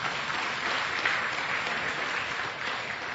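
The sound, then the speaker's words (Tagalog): Applause from a church audience praising the Lord: dense, steady clapping that holds at an even level throughout, with no talking. “Palakpakan natin ang Lord.”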